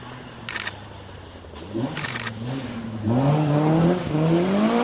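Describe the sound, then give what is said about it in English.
Car engines rev and whine at a motor event paddock where cars climb a hill and do donuts, pitch climbing in waves and growing louder, while a couple of rapid camera shutter bursts click over the engine noise. “other cars from the event going in the background.”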